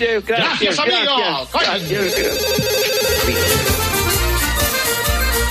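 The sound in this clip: A telephone rings for an incoming call, a steady ringing tone that runs through the second half after a voice speaks at the start.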